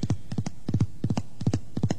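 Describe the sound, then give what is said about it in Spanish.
Horse galloping at full speed as a rider approaches a ranch on the Venezuelan plains; quick clusters of hoofbeats repeat in a tight, even rhythm, about six strides in two seconds, with no other sounds. “Y al pie del tranquero, un hombre contempla con interés a un jinete que se le acerca a todo galope.”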